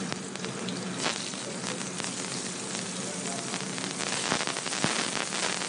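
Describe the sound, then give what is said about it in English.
Shrimp sizzle in a hot pan, a steady, even hiss of frying with scattered tiny crackles running throughout. “Going to go ahead and add the shrimp to the pan here.”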